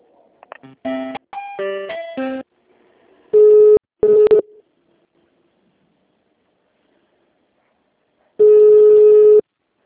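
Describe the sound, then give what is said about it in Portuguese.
Telephone line tones play while a call is being transferred: a quick run of beeps at changing pitches, then three long, steady, loud tones, two close together and one more after a silent pause. “Só um minutinho, eu vou passar aqui a ligação.”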